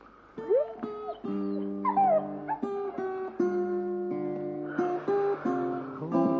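A dog whimpers in a series of high, tonal whines broken by short yips, fairly loud and repeating steadily throughout.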